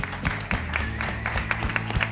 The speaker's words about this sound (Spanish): un aplauso desde la mesa para ellos